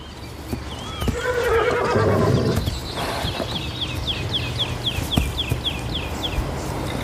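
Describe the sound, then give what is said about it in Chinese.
A herd of wild horses neighs, with one long, loud whinny early on over faint hoof clops, then many quick high bird chirps repeating steadily toward the end. “这个野马群大约有400匹野马，它们的未来取决于领头的种马。”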